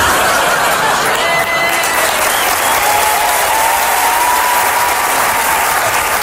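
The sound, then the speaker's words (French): Loud, sustained applause from a stand-up comedy audience, a thick wall of clapping that stays at a constant high level throughout with no pause or fade. “Et si jamais vous aviez l'intention de me faire une standing ovation à la fin, je vais vous demander de me la faire, mais maintenant.”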